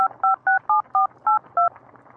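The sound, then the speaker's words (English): Telephone keypad dialing tones, used to call a general directory number, sound as seven short, clear two-note electronic beeps in quick succession, each at a slightly different pitch, with a brief pause before the last two. “This looks like a general number. I'll dial it.”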